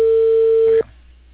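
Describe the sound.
Telephone busy signal: a single steady mid-pitched tone that sounds loudly and alone, then cuts off abruptly, leaving faint low hiss.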